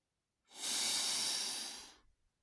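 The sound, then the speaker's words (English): A group breathes in together in one long, loud, airy inhale that swells quickly, holds, then tapers off, with near silence on either side. “Let's all breathe together.”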